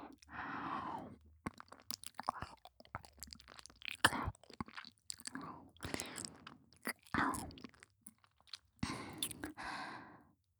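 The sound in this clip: Close, wet ASMR mouth sounds of nibbling an earlobe come in irregular bursts of soft crunching and smacking, with breathy sighs between them and near-silent pauses.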